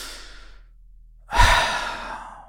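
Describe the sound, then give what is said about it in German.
One deep breath during a guided relaxation: a soft airy breath that fades out, then after a short gap a louder, longer breathy exhale, alone without talk. “Du musst einfach die Augen zumachen. Einmal tief ein- und ausatmen.”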